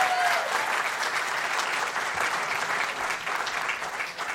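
Dense, steady applause from a church audience welcoming a young woman up to preach, loud and continuous throughout, with no talking over it.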